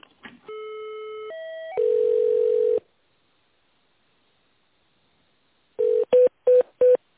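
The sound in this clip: Telephone tones as a call to a company's purchasing department is transferred: a few brief clicks, then layered tones that shift in pitch into a steady tone lasting about a second, silence, then four short beeps.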